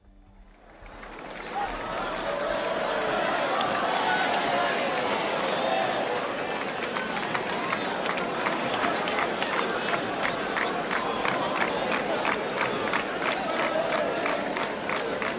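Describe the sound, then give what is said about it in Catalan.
Dense crowd noise fills the town square at the Sant Joan festival in Ciutadella. A loud roar of many voices swells in over the first two seconds, and rapid, regular tapping runs through the second half. “Anem a connectar de nou so ambient ara mateix a Ciutadella.”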